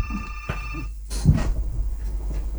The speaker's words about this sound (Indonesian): maaf dulu ini ada penelpon yang mau bergabung